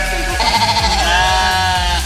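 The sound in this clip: A sheep gives one long, drawn-out bleat with a quavering, harmonic tone. It stands clear and fairly loud above a low background rumble, with no talk.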